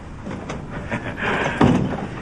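A door is closed, giving a single dull thud near the end over a low, steady background rustle.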